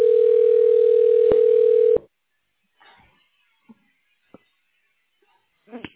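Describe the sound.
A telephone ring tone plays during a call transfer to a hospital radiology line: one steady, even tone lasting about two seconds ends in a click, followed by near silence with a few faint clicks.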